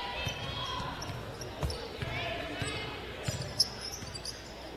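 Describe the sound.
A basketball is dribbled on the court during a women's game, with several sharp, uneven bounces under continuous commentary.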